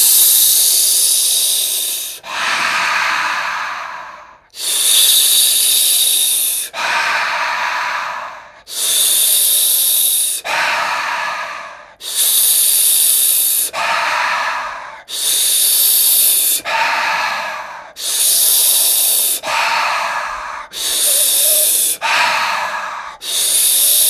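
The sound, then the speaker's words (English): Slow, deep breathing during a guided breathing exercise: many long, hissing breaths, each ending in a short pause, repeat in a steady rhythm with no talking. “You can just do it with me. Inhale.”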